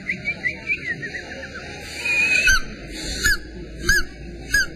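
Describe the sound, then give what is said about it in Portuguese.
A voice imitates a bird call with a series of short, high whistled chirps, repeated at fairly steady intervals, each with a quick hooked pitch shape. “Agora eu quero ouvir. Ó, eu acho que o passarinho fez assim, ó.”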